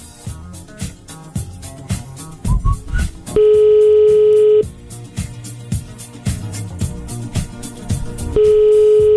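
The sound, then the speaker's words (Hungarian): Telephone dialing on a Hungarian morning radio show calling a listener: a few quick dialing beeps followed by a long, steady tone, which returns near the end, all over a rhythmic backing track. “Na, hívjuk gyorsan a naphallgatóját.”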